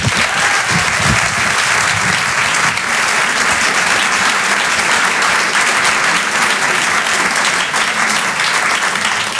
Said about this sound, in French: Faites du bruit s'il vous plaît pour Victor Jesquière.